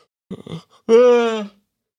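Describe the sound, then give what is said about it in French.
A tired man yawning: a few short breathy catches, then a long, drawn-out, voiced groan that holds steady before trailing off. “j'essayais de pas bâiller”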